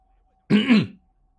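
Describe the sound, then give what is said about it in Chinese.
A man clears his throat once, a short rough rasp lasting about half a second with nothing else around it. “谢炳峰咳了声，神情尴尬地说道：”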